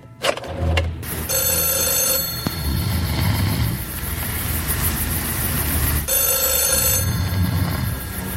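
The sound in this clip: A telephone rings as a call is placed, in two long, bright, trilling ring bursts separated by a pause, over a steady low background rumble.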